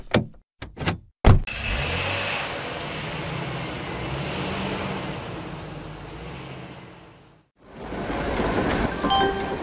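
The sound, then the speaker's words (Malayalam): A car pulling away to park at a railway station: a few sharp door clicks, then steady rushing engine and road noise holding for several seconds before cutting off, followed by more broad noise. “തനന്ന് ഇവിടെ ഇറങ്ങി നിൽക്ക്, ഞാൻ വണ്ടി അപ്പുറത്ത് park ചെയ്തിട്ട് വരാം.”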